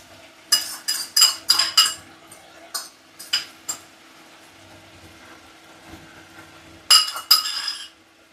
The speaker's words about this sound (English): So to our egg, we're just going to add the old good old mustard, small amount of mustard. We're just going to mash that egg up.